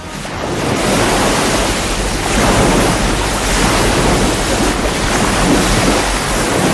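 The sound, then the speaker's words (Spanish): Waves breaking on a wild, arid beach near the coast at Puntas de Calnegre, a continuous loud wash of surf mixed with wind, swelling and easing in slow surges. “El tiempo transcurre casi sin horas, cerca de la costa. Las playas salvajes de Puntas de Calnegre lo saben”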